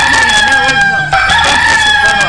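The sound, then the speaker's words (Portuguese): A rooster crows loudly and continuously, its strained call carrying through the whole stretch with only a brief dip midway. “Põe esse galo aí. Põe esse galo na gaiola.”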